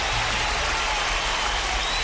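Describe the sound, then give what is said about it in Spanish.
Applause as a tribute to a man being honoured, heard as a steady, dense wash of clapping noise with no clear individual claps and no change in level. “Y un aplauso para él.”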